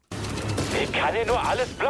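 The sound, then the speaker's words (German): Stormtroopers fire blaster lasers in a Star Wars lightsaber video game. A quick burst of sharp electronic laser shots crackles, with voices heard over the shots. “Also wenn man da mit dem Lichtschwert umherläuft und die Laserstrahlen, die Stormtrooper auf einen schießen, zurückwirft und damit dann Leute abschießt”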